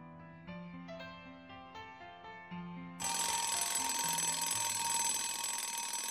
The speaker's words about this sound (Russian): Будильник.